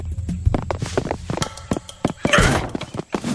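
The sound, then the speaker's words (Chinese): A door being kicked in brings a flurry of rapid thuds and bangs, peaking in a louder crashing burst before the knocking thumps trail on. “这也太猖狂了吧，直接踹门进啊，够刺激。”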